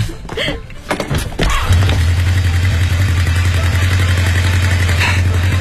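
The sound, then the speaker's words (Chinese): Motorcycle engine being started: a few clunks and sputters, then the engine catches and settles into a steady, loud, low-pitched idle rumble. “快去看看你的摩托车吧。 哦，对对对，我发动一下试试。”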